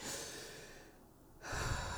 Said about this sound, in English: And I've got to take a deep breath